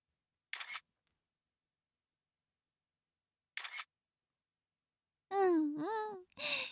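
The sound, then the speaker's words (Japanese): Two crisp camera shutter clicks as a photo is taken, each a brief mechanical snap about three seconds apart, followed by a drawn-out vocal moan with wavering pitch. “写真写真と”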